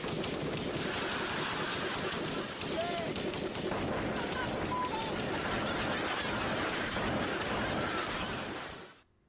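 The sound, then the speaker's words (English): Dense gunfire from a film scene of characters shooting guns at each other: continuous, rapid loud bursts of shots layered over shouting voices, holding steady before cutting off abruptly at the end. “the main thing I like about that is the guns, the fact they're all like shooting guns at each other”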